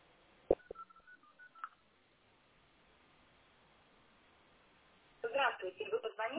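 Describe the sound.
Telephone keypad tones as a city number is dialed directly without the long-distance prefix: a quick run of short beeps, then a quiet pause before people begin talking.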